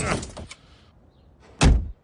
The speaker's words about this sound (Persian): هی در ماشینمو لطفا محکم نزن. ببخشید بابا، خودت که خیلی محکم تر زدی.